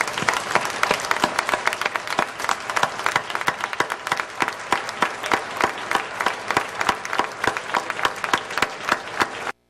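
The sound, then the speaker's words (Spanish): Warm applause from an audience at a public gathering: dense, rapid clapping that stays at an even level for nearly ten seconds, then cuts off abruptly. “todas as persoas aquí presentes imos ofrecerlle un caluroso e solidario aplauso á compañeira Teresa”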